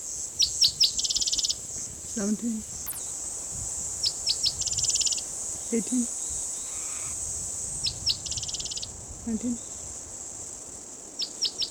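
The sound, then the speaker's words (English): Cicadas buzz in a steady high-pitched drone, broken by repeated sharp pulsed chirping bursts, while a voice speaks a few short words at intervals. “loud cicadas in the background”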